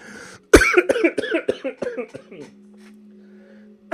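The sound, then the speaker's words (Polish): Coughing fit after a man chokes: one sharp hack followed by a rapid run of many harsh coughs, tapering off into quiet with a faint low hum. “Przepraszam, aż się zakrztusiłem.”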